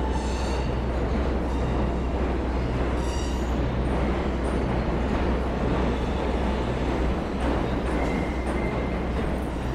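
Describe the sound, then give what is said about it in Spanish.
A New York City subway train heading to Manhattan in the early morning: a loud, steady rumble of wheels and carriages running without a break for the whole clip. “camina unos metros por las calles todavía silenciosas y casi vacías hasta la estación de metro más próxima para tomar su habitual tren diario hasta Manhattan.”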